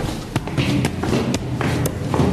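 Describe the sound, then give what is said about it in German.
Footsteps of several people climbing a staircase: four sharp, evenly spaced steps about half a second apart stand out over continuous softer shuffling. “Guck mal, da hinten die Treppe, da können wir vielleicht hochgehen. Vielleicht ist dort der Schatz. Ja, versuchen wir es einfach mal.”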